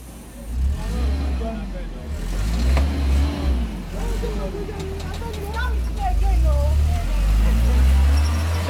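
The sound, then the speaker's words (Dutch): A bus carrying about thirty people drives away toward a transit centre, its low engine rumble growing louder toward the end. People talk over it throughout. “Daar gaat de eerste bus met 30 mensen op weg naar het doorgangscentrum.”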